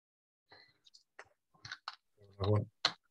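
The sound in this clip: Dice rolled and dropped on the floor make a few quick, sharp clicks and light clatters, followed by a brief louder vocal sound.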